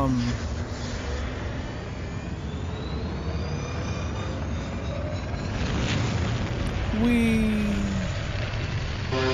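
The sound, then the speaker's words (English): A spaceship blasting off: a loud, continuous roaring rumble that swells slightly toward the end, layered with electronic tones. “Blast off east.”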